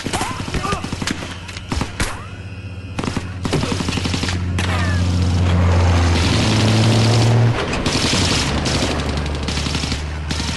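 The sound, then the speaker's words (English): Gunfire rattles in bursts during a street battle between refugees and the army, and armed vehicles drive past at speed through a muddy street. A loud engine drone swells beneath the shots, which are sharp, rapid and sustained. “A battle is taking place between the Fugees and army. Two men are shot. Armed vehicles drive past at speed.”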